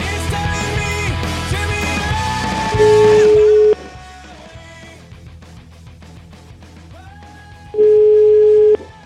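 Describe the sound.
Telephone line tones sound while a call is placed during a radio phone-in: two long, steady, mid-pitched tones about five seconds apart, the first cutting through music that then fades.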